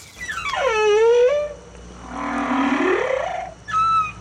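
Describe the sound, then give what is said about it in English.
A humpback whale, a large baleen whale, sings a long moaning call that sweeps down from a high pitch, then a lower rising groan, ending with a brief high tone. “I think it is a humpback whale, a large baleen whale with a knobbly head and a beautiful song.”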